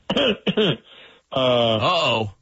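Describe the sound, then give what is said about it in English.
A loud, prolonged throat clearing begins with two short, harsh voiced bursts and a faint breathy gap, then finishes with a long, gravelly rasp that wavers in pitch before cutting off. “That's a significant throat clear.”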